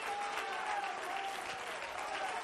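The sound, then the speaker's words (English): A church audience claps their hands together during a sermon, a dense and steady applause that stays loud and even from start to finish. “If you love his word, let's clap our hands unto him and bless his name.”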